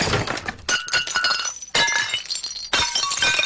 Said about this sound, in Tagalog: O pati yung ano, yung mga porcelain dyan, basagin mo na!